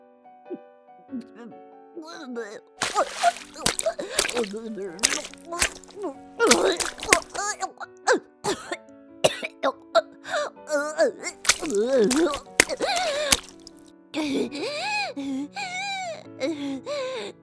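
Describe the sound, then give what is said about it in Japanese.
Retching and gagging into a tub, voiced with strained groans, gasps and moaning heaves that repeat many times in uneven bursts, often loud, with short breathy pauses between them. “また吐き気が。オケに。”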